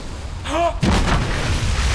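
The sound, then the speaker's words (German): Gunfire aimed at a ship at sea: a brief whistling tone is cut off by a single loud, heavy boom, followed by a lingering rumble that stays strong to the end. “Die schießen auf uns!”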